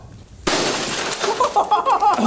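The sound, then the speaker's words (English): Glass is struck and shatters in a sudden loud crash, followed by a dense spray of tinkling, clinking shards that keeps ringing to the end. “That was glass.”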